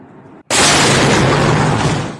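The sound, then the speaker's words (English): An explosion from Russian jets bombing Kharkiv, Ukraine: a brief quieter sound, then a sudden, very loud blast that swells into a heavy, sustained roar lasting to the end. “Social media posts, verified by journalists, show Russian jets bombing civilian targets.”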